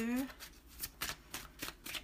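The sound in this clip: Tarot cards are shuffled and drawn during a card reading, making a few quick, papery riffling bursts of moderate loudness after a short voice at the very start.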